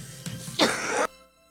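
A man coughs once during a sermon: a short, rough, breathy burst that follows a faint throat sound, then fades into near silence with a soft tonal hum.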